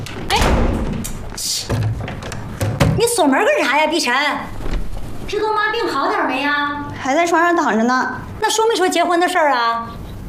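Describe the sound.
A door is being locked with a few heavy thuds and knocks in the opening seconds, then people talk over the rest.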